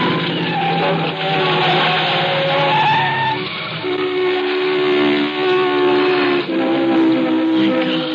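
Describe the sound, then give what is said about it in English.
Tire squeal from a car skidding after its front tire blows out and it swerves up onto a road divider: a loud, continuous screech with steady, wavering tones lasting several seconds, with no clear bang. “The tire blew out. Oh, we're lucky. No one hit us. We didn't go across the divider and there was a car coming the other way.”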